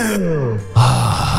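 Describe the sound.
Drawn-out vocal groan from a rock song, sliding downward in pitch, then cut off by a louder, sustained burst of sound partway through.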